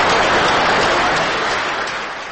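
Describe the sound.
Applause from the audience at a business forum in Armenia after a statement by Putin: a dense, steady wash of many hands clapping that fades slightly toward the end.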